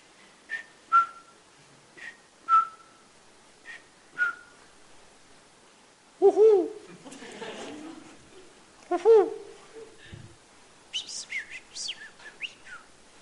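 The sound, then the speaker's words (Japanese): Birds sing in a forest with short, high chirps repeated every second or so. A voice speaks midway between them, and a quick cluster of bright twitters follows near the end. “You're in a forest. 皆さんは今森の中にいます。鳥の鳴き声も聞こえます。”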